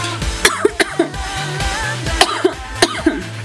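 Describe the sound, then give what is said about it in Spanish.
A woman coughs a few sharp times in short bursts with brief pauses between them, each cough a harsh, throaty burst, with no speech around them. “disculpen, me agarró la tos.”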